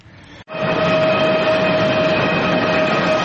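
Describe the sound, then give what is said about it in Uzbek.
Passenger train travelling from Tashkent to Samarkand: a loud, steady rolling rumble with a constant tonal whine. It starts after a brief dip near the beginning and then holds level throughout, with no voices. “Halima Yoqub Toshkentdan Samarqandga poyezdda yo'l oldi.”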